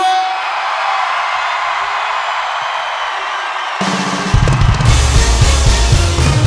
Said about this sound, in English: I like that so much, I want to do it one more time. I'm like a kid in a candy store, and I want to hear it one more time. One, two, three, scream!